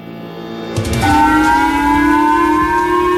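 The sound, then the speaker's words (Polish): Civil defense air-raid sirens on Hokkaido, Japan, sounding an early-morning missile alert. After a moment of quiet, a loud, steady wailing tone with strong overtones starts abruptly and holds unbroken to the end. “Syreny obudziły wczoraj rano mieszkańców japońskiej wyspy Hokkaido.”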